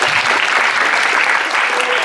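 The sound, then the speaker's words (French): Audience applause greeting a speaker at a community gathering: a dense, steady wash of many hands clapping that holds evenly from start to finish, with no single voice standing out. “Et je voudrais juste laisser la parole à Adnan qui a deux mots à vous dire. On peut l'applaudir s'il vous plaît.”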